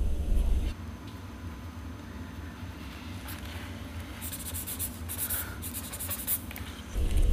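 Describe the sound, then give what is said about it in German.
Drawing on paper while sketching a ski jump makes a faint, steady scratching of strokes. Sharper, brighter scrapes come toward the end. “Aber weißt du, was ich immer mache? Ich zeichne nämlich immer.”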